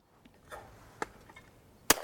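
A shotgun fires at a clay target, one sharp, loud report near the end following a few faint, quieter clicks and rustles.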